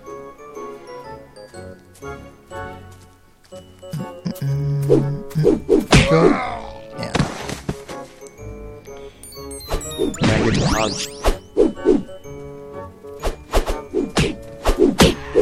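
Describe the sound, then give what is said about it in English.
Video-game punches land on enemies from long range, with many sharp whacks and thuds in bursts, mixed with metallic jingles and tinkling over a tonal game background. “Yeah, now I can punch them from really far off.”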